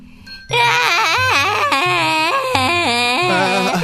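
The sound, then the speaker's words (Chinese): A child crying loudly, a wailing, sobbing cry with a wavering pitch that starts after a brief quiet moment and carries on for over three seconds. “哎，我怎么好像听到还有人在哭？哎，是谁在哭啊？”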